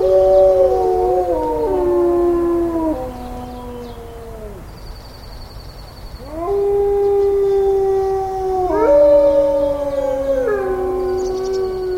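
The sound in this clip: Captive wolves at a wildlife center near Yellowstone howl on an early mid-May morning. Several long, overlapping howls rise and slide in pitch, with higher voices joining in. The loud chorus dips briefly before swelling again.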